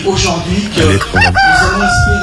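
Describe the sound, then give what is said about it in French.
A rooster crowing sound effect played as a gag: a loud, strained, harmonic crow with fowl-like clucking, dense and continuous throughout. “Je vais appuyer sur un bouton et normalement, Aymeric va se transformer en coq.”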